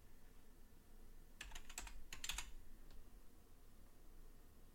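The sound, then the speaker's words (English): Faint keystrokes on a computer keyboard: a short burst of quick clicks in the middle, then a single late tap over a quiet background hiss. “If I can type.”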